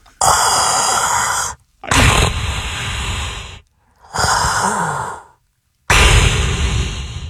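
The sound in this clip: A human voice imitates a sci-fi villain's respirator breathing with four long, loud, hissing breaths, each lasting over a second, separated by short pauses.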